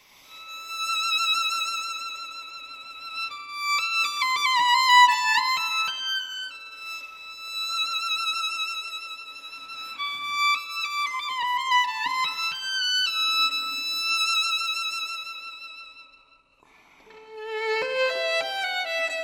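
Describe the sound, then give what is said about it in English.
A solo violin plays the concertmaster's melody from an orchestral work, live in a studio. Sweet, sustained notes with rich vibrato form flowing phrases separated by short breaths, with a brief pause before the line resumes. “I sat down in the concertmaster's seat and played, you know, Scheherazade and the beautiful melody from that, which, you know, sounds like this.”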